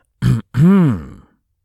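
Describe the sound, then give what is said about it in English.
A deliberate throat clear, like a spoken ahem, in two voiced bursts: a short one, then a longer one whose pitch rises and then falls. “Clear throat significantly.”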